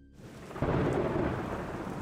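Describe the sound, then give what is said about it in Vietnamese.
Sudden rain bursts in with a deep rumble of thunder, a dense, steady hiss of falling water that jumps from quiet to loud and then holds at a constant roar. “Cơn mưa bất chợt rơi xuống”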